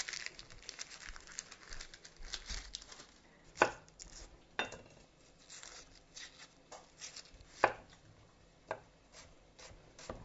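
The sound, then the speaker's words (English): A knife chops an onion with a few sharp, crisp knocks at irregular intervals among softer, quieter cutting and rustling sounds, and no talking. “And while that is browning up, I'm going to chop up an onion.”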